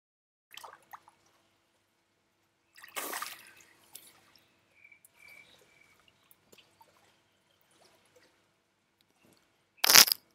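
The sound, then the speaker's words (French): Water splashes and drips as a person dunks their head under water. Brief splashes and faint drips are scattered through a quiet stretch, and a loud splash comes at the end. “j'ai pas encore mis la tête sous l'eau, mais je crois que je vais le faire maintenant”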